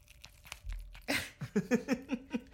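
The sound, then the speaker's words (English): Canned deviled ham spread is handled. A sharp tearing, crinkling burst is followed by a quick run of rhythmic, wet, squelchy scrapes, all fairly quiet. “Can you hear the deviled ham spread?”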